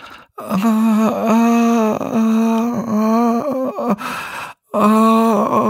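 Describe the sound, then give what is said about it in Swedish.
A voice imitates a floor polishing machine with a loud, sustained, groaning drone, broken by a few brief hitches, then a short silence before the drone resumes. “det skulle återge hur en boningsmaskin lät? Ja, det lät inte så. Ja. Nej, det lät så här.”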